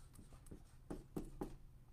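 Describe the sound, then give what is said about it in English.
Faint scratchy pen strokes drawing an eye, a few short strokes separated by brief pauses, with no one speaking. “So imagine this was the eye of somebody who is angry, right? How do I want to draw this?”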